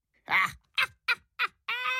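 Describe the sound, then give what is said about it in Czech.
A raven caws five times in a harsh, rasping series of calls. The first call is broad and loud, the middle three are short and clipped, and the last is longer and more tonal. “Zakřičel havran Sejrec”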